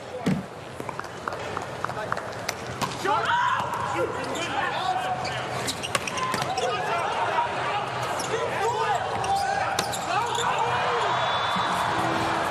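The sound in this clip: Volleyball serve from the number 20 middle blocker during a match: sharp ball impacts and quick squeaking footsteps over a steady crowd murmur, with people talking throughout.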